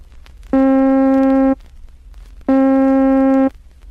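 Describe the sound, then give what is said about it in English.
A middle C tone plays twice with abrupt starts and sudden cutoffs, each a steady one-second buzzing note with a rich harmonic timbre, separated by a short silence. “When growth and decay are both rapid, it sounds like this.”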